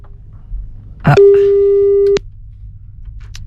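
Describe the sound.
A telephone tone on a call: one long, steady, loud beep lasting about a second, preceded by a brief burst of voice, then quiet.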